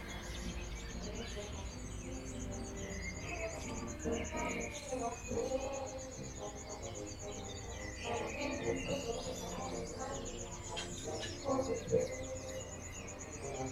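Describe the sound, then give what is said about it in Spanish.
Crickets chirping in the morning give a steady, high, finely pulsing trill that runs through the whole clip, layered over a dense, busy background of other sounds. “Los últimos grillos también cantan por la mañana.”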